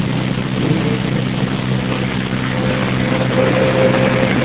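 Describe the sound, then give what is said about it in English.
Engine of a commercial garbage truck: a steady, low, rough rumble that drones on without a break, fairly loud and unchanging in level. “It's a garbage truck. Environmental company. I guess they do commercial trash.”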